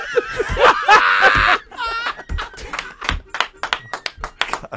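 A hand taps on the left corner of a table in a string of sharp, short knocks, mixed with laughter and chatter.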